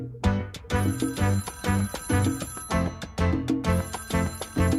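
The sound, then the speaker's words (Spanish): A telephone ringing over and over in quick bright bursts, mixed with rhythmic music. The sound is loud and continuous, with no voices. “como molesta este teléfono”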